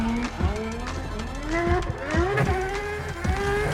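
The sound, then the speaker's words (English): A rear-wheel-drive McLaren drifts around a track, its engine loud and continuous as it revs up and down repeatedly, with several sharp dips in pitch between climbs and no voices. “With a rear-wheel drive setup, this McLaren is a master at sliding with complete control.”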